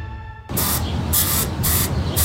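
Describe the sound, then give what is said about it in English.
A spray can of termite insecticide hisses in a shed: a loud, continuous aerosol hiss starts abruptly after a short quieter stretch, with repeated surges of brighter spray. “Well, I was cleaning the shed and I found termites, so I got the spray.”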